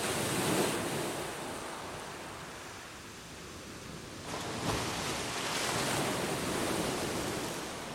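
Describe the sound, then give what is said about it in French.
A huge wave crashing on a shore with high surf, a dense roaring wash of water that swells again midway and keeps churning steadily, with no voices. “Les vagues étaient hautes, mais la pauvre femme était affamée. Aussi, elle se mit à ramasser des coquillages. Soudain, une immense vague s'abattit sur elle.”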